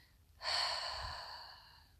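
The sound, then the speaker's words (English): A gentle inhale through the nose during a relaxation exercise on a mat: one soft, airy breath that begins abruptly, lasts over a second and slowly fades. It is quiet and alone. “So, breathe in gently through your nose.”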